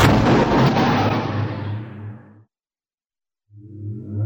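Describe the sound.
Mines detonated in a corridor explode in a loud, broad blast with a heavy low rumble that dies away over about two seconds. After a second of silence, another rumbling burst swells in toward the end.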